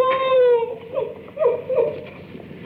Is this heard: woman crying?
yes